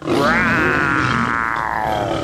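A lion roars in a single loud, rough, sustained call lasting about two seconds, its growling tone holding steady before easing slightly toward the end.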